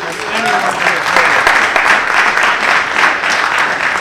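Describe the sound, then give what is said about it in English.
Audience applause: a dense, steady wash of many hands clapping, loud and even from start to finish with no clear break. “you heard a Washingtonian begin that applause”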